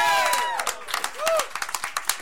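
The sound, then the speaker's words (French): An audience applauds the 45th anniversary of CKRL, a community radio station, during its fundraising radiothon. Sharp individual claps ring out alongside a couple of rising and falling whistles, with the clapping becoming distinct and rapid in the second half. “J'aimerais qu'on donne un gros semaine d'applaudissements aux 45 ans de CKRL, mesdames et messieurs, cette année.”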